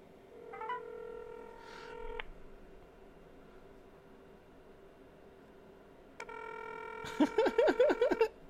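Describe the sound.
Touch-tone dialing on a speakerphone: two bursts of electronic beeping tones separated by a quiet gap. The second burst is joined by a quick run of louder, pulsing sounds.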